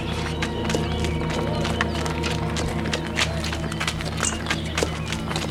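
Running footsteps of several people chasing a man armed with a knife: many rapid, overlapping footfalls pound continuously and fairly loudly over a steady low background hum.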